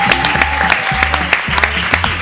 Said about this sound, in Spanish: Un aplauso. Un aplauso para vosotros.